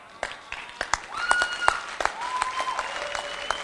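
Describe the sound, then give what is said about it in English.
An audience claps in sparse, irregular bursts. The claps stay fairly faint, with no steady rhythm. “But sir, stop clapping.”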